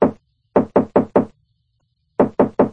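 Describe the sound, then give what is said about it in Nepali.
Sharp, loud knocking on the door of a house: one knock, then a quick run of four, a pause, and another run of four. “उनले घरमा पुगेर ढोका ढकढकाए”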